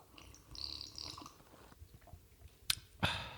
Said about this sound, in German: Ich trinke mal einen Schluck.